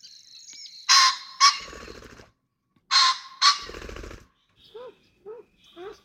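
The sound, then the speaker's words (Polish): Wings flap in two loud pairs of broad, rushing bursts, then a bird gives three short, high calls. Quiet stretches separate the sounds. “A mamy tutaj nie tylko głos, ale również trzepot skrzydeł, bardzo charakterystyczny.”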